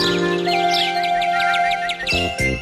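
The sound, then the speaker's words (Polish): Sparrows chirp in a supermarket radio advert: many quick, high chirps repeat over a loud, continuous music bed. “Ćwierkają wróbelki od samego rana.”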